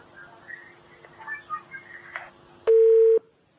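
A telephone line tone follows a disconnected call: one loud, steady mid-pitched tone lasting about half a second, after a stretch of faint, low-level sounds.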